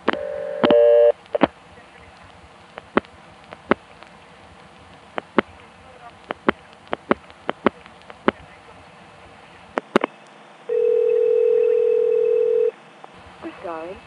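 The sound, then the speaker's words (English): Telephone line sounds during dialing on a number one ESS switch: a short tone opens, followed by many sharp, spaced clicks, a steady tone lasting about two seconds, and a brief sequence of tones at the end. “Let's try dialing something else and maybe we can get an actual recording.”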